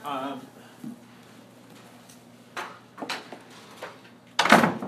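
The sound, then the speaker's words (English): A classroom door is shut. A voice speaks briefly at the start, then comes a quiet stretch with a few soft knocks and shuffles, and finally one loud, sharp thud near the end. “So, let me close the door.”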